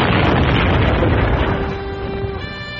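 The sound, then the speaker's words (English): An explosion from a birthday cake rigged with explosives: a loud, dense, roaring blast fills the whole clip without pause and eases slightly toward the end. “They'd rigged your birthday cake with explosives.”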